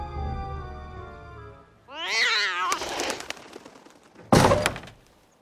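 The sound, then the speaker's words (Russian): A cat meows in an animated cartoon with a single wavering, strongly tonal cry. A few seconds later comes a sudden loud thud. “Ты это же кошка! Голубей гоняет.”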